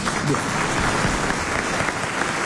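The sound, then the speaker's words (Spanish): Audience applause on cue: a dense, steady wash of many hands clapping at an even loudness throughout, with no pauses or swells. “Público listo, público listo. Aplausos bien. De público.”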